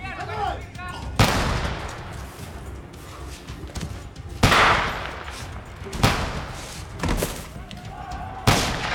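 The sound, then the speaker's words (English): Gunshots as prisoners are taken from their cells and executed one by one during a revolutionary terror. Several sharp, loud single reports ring out a second or more apart over a low rumbling background. “One by one, prisoners were taken out of their cells and shot.”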